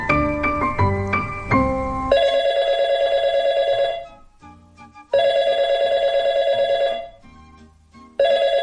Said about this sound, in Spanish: ¿Sí? ¿Diga? Un momento. Vitorino, ¿quieres atender una llamada? Una llamada para Calleja, naturalmente.